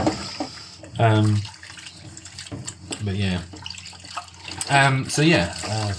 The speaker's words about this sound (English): Yeah, I've pretty much done the washing up.